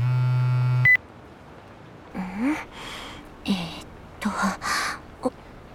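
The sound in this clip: A phone's email notification beep, a steady buzzy tone rich in harmonics lasting almost a second and ending in a brief higher blip, followed by someone speaking.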